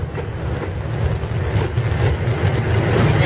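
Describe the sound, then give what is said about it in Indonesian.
Steady low rumble inside a train carriage carrying only a few passengers, a heavy engine-like drone with faint rattling that slowly grows louder, with no voices. “Di dalam gerbong kereta yang aku tumpangi ini, isinya hanya ada beberapa orang.”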